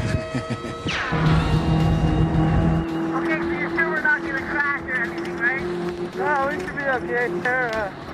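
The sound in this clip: An off-road race vehicle driving on dirt trails gives a loud, heavy engine roar and rumble for a few seconds, then a steadier droning engine under people talking.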